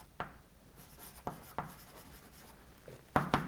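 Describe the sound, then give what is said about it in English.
Pen or marker writing as a diagram is drawn by hand, a few sharp scratchy strokes spaced irregularly across quiet pauses, ending with two quick strokes close together, with no talking. “So we can draw it as a diagram.”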